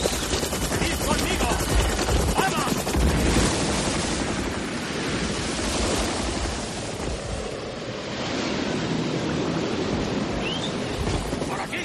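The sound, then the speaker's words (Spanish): Ocean waves about two metres high break on both sides, a loud, continuous roar of surf and rushing wash with wind buffeting, the noise swelling and easing slightly without distinct separate crashes. “¡Las olas! ¡Las olas! Ah, ya. Fíjate, rompen a un lado y al otro. ¡Mira, olas de 2 metros!”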